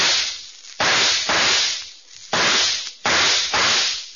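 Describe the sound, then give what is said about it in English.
Several sharp gunshots from a Colt .44 revolver, each a loud crack trailing into a long decaying rumble, fired in a quick, irregular series with no voices. “Six shots from a Colt 44. For no reason whatsoever other than to get your ear attuned to what you're going to hear.”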